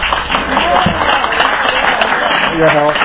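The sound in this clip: An audience at a Buddhist Society of WA evening event claps loudly and steadily, with a couple of voices heard briefly over the applause.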